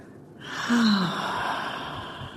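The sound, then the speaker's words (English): A deep breath drawn in through the nose during a mindfulness meditation exercise: a soft, airy inhalation that swells and holds for about two seconds, heard alone without talk. “Let's take a couple of deep breaths. Inhaling by the nose and”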